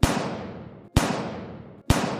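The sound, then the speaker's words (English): Three gunshots from an Italian-made revolver, evenly spaced about a second apart, each a sharp, loud crack with a long fading tail that runs into the next shot. “takes out an Italian-made revolver smuggled from all across the world, from Africa, and fires three shots.”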